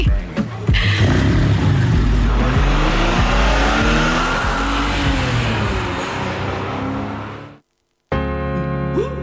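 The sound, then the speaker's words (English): A sports car engine revs hard and loud, and tires squeal and skid over a roaring, surging engine note whose pitch swings up and down. After about seven seconds the sound cuts to brief silence, then the engine noise returns. “Driving around town in my sexy sports car.”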